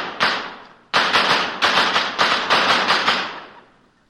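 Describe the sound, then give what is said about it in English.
Gunshots ring out as a sound effect in a vintage radio comedy gunfight: one sharp crack, a brief pause, then many rapid shots in an uneven volley. They stay loud, with nothing else behind them, before tailing off. “I got a couple of guns here. See, you're jammed right into your chest now. I'm going to let you have it right now.”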